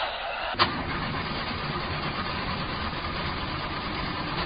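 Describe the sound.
A car engine cranks without catching, its clutch plate suspected to be faulty. A sharp click opens the sound, followed by a steady, continuous churning drone that holds at an even level to the end.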